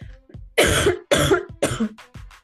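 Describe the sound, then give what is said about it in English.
A harsh, loud coughing fit: three strong bursts in quick succession, each with a rough, throaty texture, and smaller breathy sounds before and after them. “that was an ungodly cough.”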